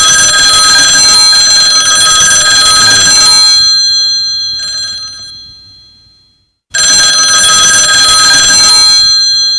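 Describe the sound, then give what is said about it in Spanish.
A telephone rings with loud, steady electronic tones that fade, cut out briefly, then resume at full strength. No voices are heard. “Ya verás, a ver si cojo el teléfono.”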